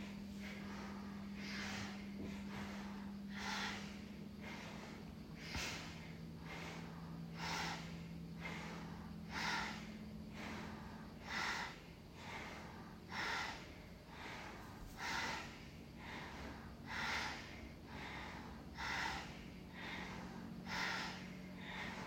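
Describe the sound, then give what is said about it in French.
Bhastrika breathing with alternating nostrils: forceful nasal inhales and exhales, many sharp, even breath bursts at a brisk, steady pace over a low, continuous hum. “Donc inspire à gauche, expire au centre, inspire à droite, expire par les deux narines.”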